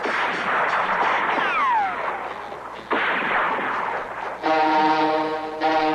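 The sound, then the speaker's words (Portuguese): Gunfire from a shooter aiming at targets below from a piloted aircraft, heard as loud, dense bursts within continuous roaring noise, with whistling sweeps partway through and a steady horn-like tone near the end. “Vou embaixo, piloto. Vou atirar.”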